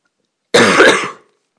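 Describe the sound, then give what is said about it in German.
A single harsh cough with throat clearing: one loud, rough burst lasting well under a second, with silence before and after and no talk. “Ja, entschuldigt. Ich habe leichten Husten momentan.”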